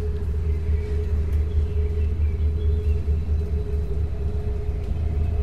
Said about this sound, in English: Oh yeah, we're driving and driving.